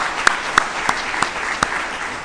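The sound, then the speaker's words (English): After a Christmas concert, the audience claps in a broad, steady wash of applause, with a few sharper single claps cutting through at intervals. “While we've been waiting, let us clap. Bravo, bravo. Well done. Well done, everyone.”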